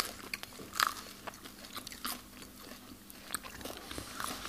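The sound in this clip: Faint crunching bites and chewing on sourdough bread. A few sharp, crisp crunches stand out among softer, irregular chewing noises.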